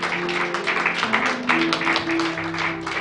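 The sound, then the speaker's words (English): Churchgoers clap their hands in praise at a service, a busy, rhythmic patter of claps over sustained musical tones that carry on beneath them. “We'll give Jesus a hand clap of praise.”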